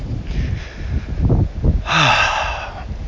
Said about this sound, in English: That's not me breathing. That's the wind that's really breathing on me.